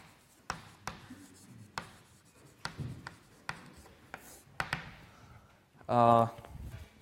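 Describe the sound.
Hand drawing of a mathematical sketch with parallel lines: many short, sharp scratching strokes and taps, with faint rubbing between them, spread unevenly over several seconds.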